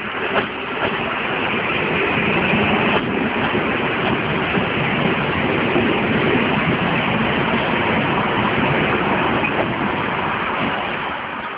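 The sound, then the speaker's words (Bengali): A train pulling into a station gives a steady, continuous rumbling roar that holds at an even loudness for the whole stretch, with no clear voices over it. “চলে আয়, train চলে আসছে।”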